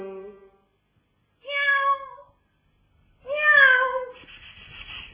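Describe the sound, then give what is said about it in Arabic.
A cat meows three times, each a clear drawn-out cry separated by silence. The third is the loudest and longest and trails into a low rough noise. “مياو مياو. تعالي هنا، تعالي. ايوه تعالي امال، خليكي قطة اميري”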